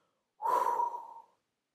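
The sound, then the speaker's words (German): Deep breath in a guided relaxation exercise, in through the nose and out through the mouth: one airy, breathy rush about a second long that fades out, alone in silence. “atme wieder ganz tief durch die Nase ein Füll den Bauch, füll die Brust, atme durch den Mund aus, lass alles gehen.”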